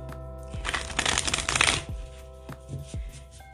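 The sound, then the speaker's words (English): Playing cards shuffled for a relationship card reading spread: a dense riffling burst lasting about a second, then a few soft taps as the cards are handled and squared. “Shuffle these cards, and then we'll get some shit going here.”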